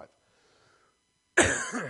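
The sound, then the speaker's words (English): A single loud, harsh cough bursts out suddenly after near silence and trails off in a rough, breathy rasp. “Sorry for coughing in your ear.”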